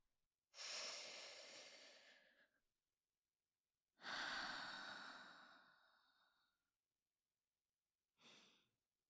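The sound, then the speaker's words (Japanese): Deep breaths taken with no talk: two long, airy breaths, each several seconds, then a brief short one. “ちょっと深呼吸しますね。”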